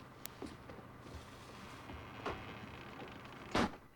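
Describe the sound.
A house's back door being shut: a single solid thud near the end stands out above faint background noise, with a few softer knocks before it.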